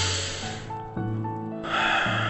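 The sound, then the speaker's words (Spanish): A deep breath, heard as breathy rushes of air at the start and again near the end, set over soft, sustained steady tones. “Vas a respirar profundamente.”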